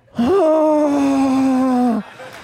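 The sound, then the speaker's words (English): A voice imitates a woman groaning as she lies on the ground, giving one sustained, steady-pitched moan about two seconds long that lifts slightly at the start and fades away at the end. “She didn't get up and start preaching. She would just lay on the ground groaning.”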